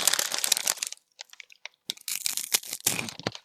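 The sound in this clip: Crinkling wrapper and crunchy bites as a Hanuta wafer is unwrapped and eaten, with dense bursts of rustle and crunch, a sparser pause in the middle, then more crinkling and chewing.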